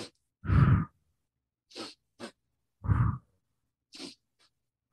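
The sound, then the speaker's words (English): Breathing exercise in which pairs of short, sharp sniffs in through the nose alternate with one forceful, breathy exhale out through the mouth, repeated over a few cycles with silence between breaths and no talking. “a breath practice that's as simple as breathing in for 2 strokes in your nose and 1 stroke out your mouth. So it sounds like,”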